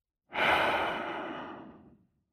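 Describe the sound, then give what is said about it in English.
A deep breath is let out as a single long, soft exhale. The breathy rush swells quickly and then fades away over about two seconds, with no talk. “take a deep breath. Let it out.”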